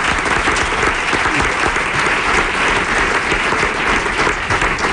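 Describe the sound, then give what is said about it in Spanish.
Loud, sustained applause from an audience, with dense, steady clapping and crowd noise throughout and no breaks. “Venga, venga, un aplauso”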